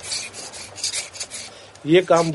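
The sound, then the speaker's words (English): Rasping scrapes of a knife shaping bamboo sticks for the frame of an Indian fighter kite: repeated short strokes of dry, gritty friction, followed by a few louder squeaky scrapes. “Its square shape comes from the two bamboo sticks that form its central frame. One curves like a bow, and the other is straight. He uses a knife to carefully shape these sticks.”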